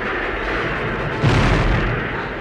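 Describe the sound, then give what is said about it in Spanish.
Cannon fire from artillery batteries on the city walls of Gerona, a low, continuous rumbling roar that swells into a heavier boom about halfway through, then slowly eases off. “¡Fuego! ¡Fuego en todas las baterías! ¡Fuego! ¡Fuego!”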